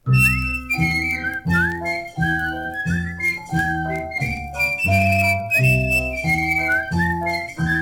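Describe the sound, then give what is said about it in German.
Several people whistling in a contest: bright melodic whistled notes, some sliding up, carried over a steady pulsing low backing, continuous and fairly loud throughout. “Und jetzt wollen wir mal sehen, wer am besten pfeifen kann.”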